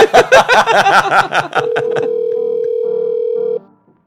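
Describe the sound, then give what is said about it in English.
Telephone number being dialed: a quick run of tones gives way to one steady tone held for about two seconds, with a few short, lower beeps alongside before it cuts off. “Right, we're going to get him on the phone now. Let me just finish dialing.”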